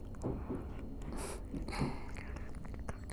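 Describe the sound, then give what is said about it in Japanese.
Soft mouth and biting sounds on someone's neck: a few moist nibbles, smacks and faint crunchy clicks spread irregularly over a steady low hiss, with no voice. “首も噛んであげるね。”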